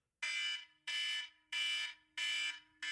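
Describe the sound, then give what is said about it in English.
An electronic alarm used as a cue sounds in five loud, harsh, buzzy pulses of about half a second each. The pulses are evenly spaced, the last is cut off, and no one talks. “you can hear that alarm at your end”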